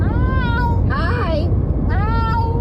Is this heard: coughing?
no